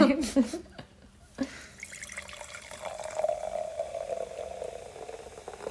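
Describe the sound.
Sparkling tequila poured from a can into a glass: a few sharp clicks and splashes, then a steady fizzing, trickling pour that runs to the end, with brief voices near the start.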